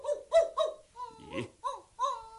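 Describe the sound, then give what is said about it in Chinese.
A dog barking in a series of short, high, whining yelps, several in quick succession with brief gaps between them. Some yelps bend in pitch, and one in the middle is rougher and noisier. No one talks. “你只龙狗由边度嚟噶？啊，可能就系高辛王嘅龙狗啦。”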